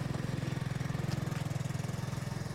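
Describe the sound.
A motorcycle engine throbs with a low, even, rapid pulse that stays steady and faint throughout, with no clear change in speed.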